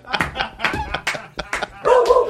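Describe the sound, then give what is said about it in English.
A voice imitates a dog barking: a rapid run of many short, yappy barks, then a longer, drawn-out bark-like sound at the end. “Oh, do you hear that? It's my dog.”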